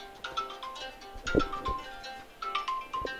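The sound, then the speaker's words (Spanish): A mobile phone ringtone plays a repeating pattern of electronic melodic tones at moderate volume, with a few low knocks among them. “Bueno, mi teléfono se pone a sonar.”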